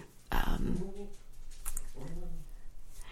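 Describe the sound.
A dog whimpering, with two drawn-out, whining cries; the first opens with a sharper burst and is louder, the second is softer and shorter.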